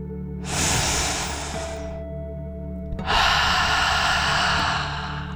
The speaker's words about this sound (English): let's take one final deep dragon breath in and out.